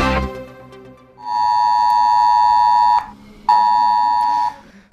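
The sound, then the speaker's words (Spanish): Loud electronic alarm tone from an ES-Alert emergency message sounding on mobile phones, issued during a storm for the Guadalete river area of Andalusia; two long, steady, buzzing blasts, the second shorter, after a brief noise at the start. “Las alarmas de los mensajes es alert emitidos por la Junta han sonado en miles de teléfonos de vecinos del curso medio y bajo del Guadalete”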